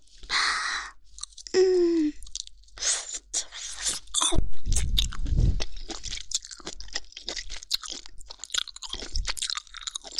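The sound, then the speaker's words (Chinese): Crispy food is bitten and chewed, with many sharp, loud crunches and chewing sounds in an irregular rhythm. “啊，咬下去爽爽的。还好刚才是咬了一口，没有咬完，接下来还能再吃两口呢”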